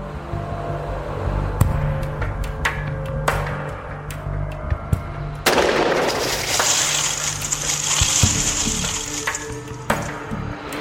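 Police gunshots fired at an unbroken glass storm door by a Gwinnett County officer: a few sharp, loud bangs stand out over a noisy background, one followed by a longer burst of crackling noise.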